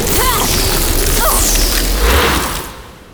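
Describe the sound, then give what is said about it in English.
Energy blast striking a barrier: a loud, dense crackling roar with quick sweeping whooshes running through it, sustained for over two seconds before it tapers off. “I'll blast my way through this thing.”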